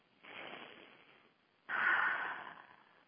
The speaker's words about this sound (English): So let's take a couple of deep breaths.